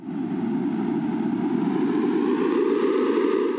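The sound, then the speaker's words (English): Sonification of higher ocean CO2 outgassing: a loud, continuous rushing noise lasting nearly four seconds that grows gradually brighter toward the end. “The more gas that is released into the air, the more the sound will become louder and brighter like this.”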